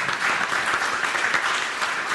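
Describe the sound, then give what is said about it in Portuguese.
Sustained applause from a conference audience closing a panel session, a dense, even rush of many hands clapping at steady loudness with no talk over it. “propondo naturalmente à sala uma salva de palmas para as intervenções”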